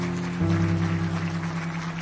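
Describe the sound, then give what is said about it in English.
An audience claps as a clap offering in a church service, a steady patter of many hands over sustained low organ-like chords. “Can you give the Lord a good clap offering today? Would you do that?”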